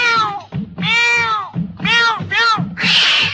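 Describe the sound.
Cat meows: a few loud, drawn-out meows in quick succession, each arching in pitch, followed by a harsh, noisy burst at the end.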